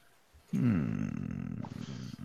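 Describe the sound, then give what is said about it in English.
A low, rough groan from a listener, voicing disagreement: it breaks in after a brief quiet and drags on for almost two seconds as one sustained, gravelly tone. “What was that groan for? Did you not agree with that?”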